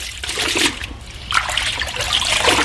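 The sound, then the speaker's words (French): Water splashes and trickles as a dried, salted whole animal hide goes into a bath to desalt: a short burst of sloshing, a brief lull, then a longer stretch of splashing and dribbling. “la prochaine étape, c'est de la mettre dans l'eau pour qu'elle se dessale.”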